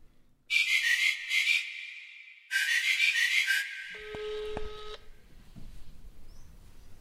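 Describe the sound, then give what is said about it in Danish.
Electronic telephone tones as a call is dialled and rings: two long warbling bursts, then a shorter, steadier beeping tone that fades into low background noise. “Skal vi så ringe til Morten? Jeg synes, vi skal ringe til Morten.”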